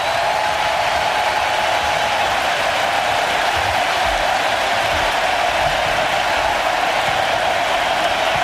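A stadium crowd in Kansas gives a standing ovation to Messi during a World Cup match between Argentina and Algeria, late in the game. The crowd noise and clapping blend into a continuous, steady roar.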